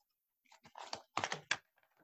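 Faint shuffling of a deck of cards: a few soft, crisp flicks and riffling bursts, irregular and quick, with short pauses between them and no talk.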